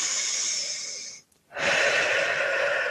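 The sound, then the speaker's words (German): Deep breathing in a relaxation exercise: a long, airy breath rushes steadily, breaks off into a brief silence, then a second long breath follows, with no talking. “Dann atme mal ein paar Mal tief ein”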